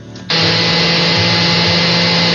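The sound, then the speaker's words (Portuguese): A kitchen blender switches on for corn, cream cheese, cream and chicken cooking water, jumping from quiet to a loud, steady whirring motor roar that runs on without pause. “Vamos agora no liquidificador?”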